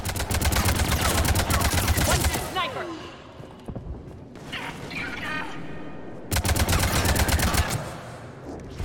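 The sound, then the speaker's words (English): Automatic gunfire in a video game, shooting through cover. Two long, rapid bursts of shots come at the start and near the end, with quieter game sounds between them. “Oh yeah, I can just shoot through cover now.”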